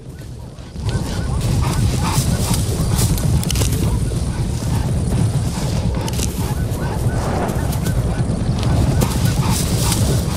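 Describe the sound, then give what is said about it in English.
Hooves of a zebra herd galloping across the savannah as they flee a cheetah, a loud, dense, continuous drumming rumble that barely varies from start to finish. “Clouds of dust are kicked up as the herd of zebra flee from the oncoming cheetah.”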